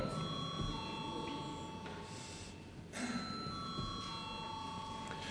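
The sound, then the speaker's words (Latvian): An electric bell rings in a parliament chamber to call members to a vote. It is a steady, continuous metallic ring with one brief break midway. “Lūdzu, zvanu.”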